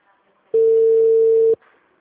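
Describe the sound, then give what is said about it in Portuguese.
A telephone ringback tone plays while a call is being returned: one steady, mid-pitched beep lasting about a second, with faint talk just before and after. “Só tô retornando. Pera aí rapidinho, pra ver se ele atende.”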